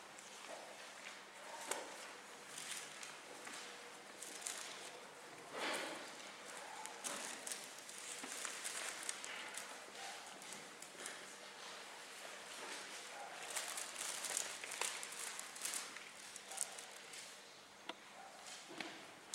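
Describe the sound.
Bible pages being turned to Matthew chapter 5, heard as faint, continuous papery rustling and many small taps that rise and fall throughout, with no clear voices.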